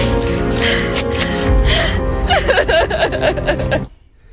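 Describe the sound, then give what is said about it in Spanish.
A woman sobs in a Spanish film scene with gasping, shaky, wavering cries that build in intensity, then cut off abruptly into near silence. “Esta mujer que llora se llama Soledad y es la protagonista de una película recién acabada, rodada entre Madrid, Toledo y Huelva.”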